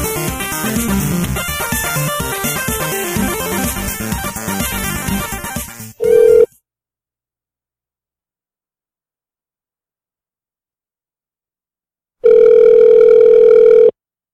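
Tones of an outgoing telephone call. After a stretch of music cuts off, a short electronic tone sounds, then a long silence, then a steady ringing tone lasting about two seconds.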